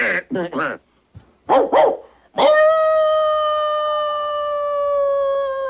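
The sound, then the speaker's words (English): Dog barking: a few sharp, quick barks in short bursts, then a single long, loud howl held at a steady pitch that trails off slowly toward the end. “I'll bark all night if I have to.”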